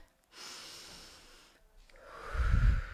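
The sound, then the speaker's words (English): A deep breath drawn in through the nose during a breathing exercise by someone who has been sick and short of breath. A long, soft airy breath is followed by a louder, rougher nasal intake near the end. “You breathe. And then down you go.”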